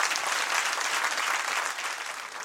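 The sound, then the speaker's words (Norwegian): Steady, dense audience applause for a guest standing on stage at a live show, a continuous wash of many hands clapping throughout with no distinct single claps, easing slightly toward the end. “Ja, vi runder av her, og så gir vi en stor applaus til dagens gjest”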